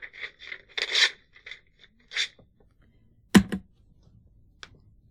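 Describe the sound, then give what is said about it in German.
Two sheets of paper being torn up, heard as a series of short, soft rasping rips followed by a few sharper, louder tearing snaps, with quiet gaps between them and no other sound. “In Ihrem eigenen Interesse zerreiße ich beide Papiere.”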